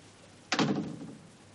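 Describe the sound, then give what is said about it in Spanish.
A door closing: one dull, solid thud with a short fading tail, alone against a quiet background. “Cierra la puerta.”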